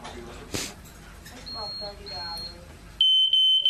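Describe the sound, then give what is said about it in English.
A fire alarm gives loud, shrill, high-pitched beeps in a few short pulses at the end, after a quieter stretch in which people talk. “Oh, wait. That's the fire alarm.”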